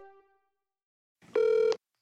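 A single telephone keypad dialing tone, a loud, steady electronic beep lasting under half a second, sounds alone after a faded tone, just before an arena's automated phone menu.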